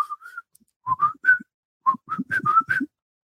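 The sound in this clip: A person whistles the catchy tune of a 1988 pop song. Clear, bright notes come in short melodic phrases: a brief opening pair, a pause, then runs of a few quick notes, moderately loud and on their own.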